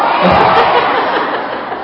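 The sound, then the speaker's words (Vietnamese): An audience at a lecture applauds in a dense, continuous wash of clapping that holds steady for about two seconds, then eases off slightly. “Tôi tính các vị vỗ tay là mình kết thúc tại đây luôn á”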